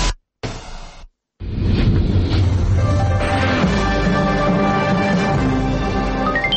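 A departing train as a sound effect: two short bursts of noise, then a loud, steady rumbling roar with faint, high, tonal whines running through it.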